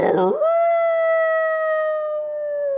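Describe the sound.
A person imitates a wolf howl with one long, clear, steady tone held for over two seconds. It starts with a brief rougher onset and sags slightly in pitch at the end.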